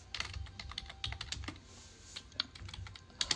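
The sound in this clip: Typing on a computer keyboard: many quick, irregular keystrokes clatter faintly and steadily throughout, with no voices.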